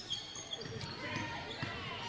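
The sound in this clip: A basketball dribbled on the court during a girls' game, with faint bounces buried under a play-by-play voice and background crowd noise.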